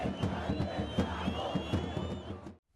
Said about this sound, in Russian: Чилийцы приветствуют своего новоизбранного президента. Впрочем, Мишель Бачелет ранее уже занимала этот высокий пост. Сторонники нового президента Чили Мишель Бачелет заполнили улицы Сантьяго,